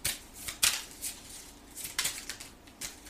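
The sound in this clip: Playing cards are handled and laid down. Many faint, crisp snaps and papery flicks come in an irregular patter, with a few sharper slaps standing out.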